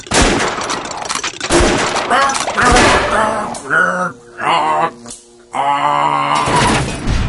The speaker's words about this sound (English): Officer, help. How? Shoot him in the jaw.